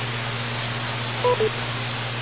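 Two brief beeps from an amateur radio repeater, a quick pair of mid-pitched tones rising out of steady static hiss and a low hum on the channel.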